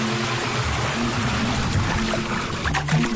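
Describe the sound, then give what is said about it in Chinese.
A small stream of water running, as from a shower, giving a steady, continuous hiss with no break or talk. “不如这样，小水流奏响欢乐节水乐章”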